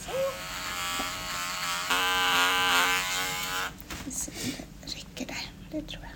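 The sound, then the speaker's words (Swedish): Electric clippers buzz as they shave the fur on the neck of a female animal lying on her side before a blood draw. A steady harmonic motor hum runs for about three and a half seconds, then stops, leaving scattered clicks and rustling. “Nu kommer jag att raka här lite på halsen så jag ser vart kärlet är.”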